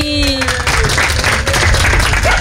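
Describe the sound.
Applause for four dogs leaving a dog competition, dense crackling clapping that continues throughout, with a voice heard briefly at the start.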